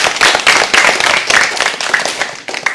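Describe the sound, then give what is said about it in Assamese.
Hand clapping from a group at a children's fair gathering, a loud, dense burst of many claps that eases off slightly toward the end. “বাৰু, সকলোৱে হাত চাপৰি বজাই দিয়া।”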